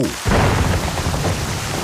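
Thunderstorm with pouring rain and thunder: a loud, dense wash of rain noise that bursts in after a brief quiet moment and holds steady, with a deep rumbling boom underneath.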